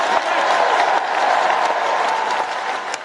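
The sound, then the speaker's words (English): A lengthy standing ovation for Keir Starmer at the Labour conference, with dense, loud, sustained applause from a large crowd, holding steady throughout and easing slightly at the end. “Keir Starmer's big policy announcement, which received a lengthy standing ovation from the audience, was that a Labour government would create Great British Energy”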